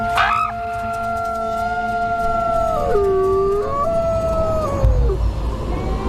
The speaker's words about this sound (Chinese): 这种特殊的叫声有召唤作用，一群狼应声而来。